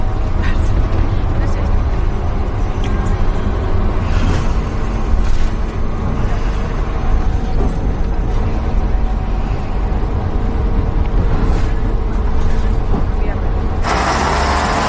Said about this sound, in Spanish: Más tarde el chico se baja del autobús